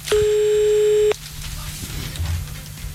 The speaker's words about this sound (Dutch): Is er nou weer een restaurant wat je nou belt?